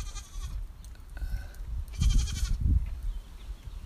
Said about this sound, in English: Oh, the goats are making a cameo. Here they come.